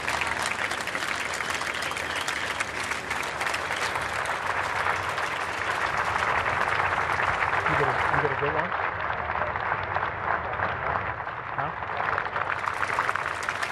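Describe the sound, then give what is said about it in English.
Applause greets Keir Starmer as he leaves Downing Street on leaving office as Prime Minister: dense, continuous clapping from a crowd runs through the whole stretch, with a voice talking over it. “He was greeted with applause when he left”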